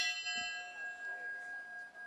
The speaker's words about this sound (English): They rang a bell 10 times.